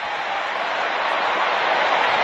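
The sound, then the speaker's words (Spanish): A stadium crowd at AT&T Stadium during a Cowboys football game roars as fans do the wave, a dense, continuous wash of cheering that swells slightly toward the end. “lo que escuche usted en radio aquí, para describirle la fanaticada haciendo la ola, Víctor, en el AT&T Stadium.”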